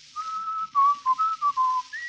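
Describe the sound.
Whistled melody of an old favorite song, a short line of clear, pure notes: one long held tone, then several shorter notes in sequence, ending on a higher note.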